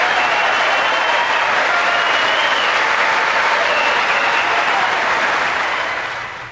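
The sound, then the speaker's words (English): Loud, sustained applause in the chamber at a presidential State of the Union address, a dense, even roar of many hands clapping that holds steady for several seconds before fading out at the end. “the fact that the president brought that up at his State of the Union address, and it was cheered, granted, it was cheered by the Republicans there.”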